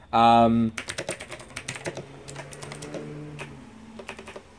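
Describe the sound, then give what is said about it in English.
Keyboard typing as someone writes a message: many rapid, irregular key clicks of varying loudness after a short tonal sound at the start, with a low steady hum under part of the run. “just got to send a message and I cannot type. And talk.”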